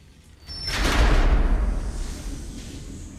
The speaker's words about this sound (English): pushes open a large double door with a small window in it at head height